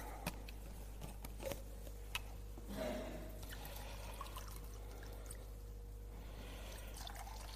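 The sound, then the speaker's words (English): Water being poured into two glasses: a faint, steady trickling splash over a low electrical hum. “So two glasses, and we'll fill them both with water.”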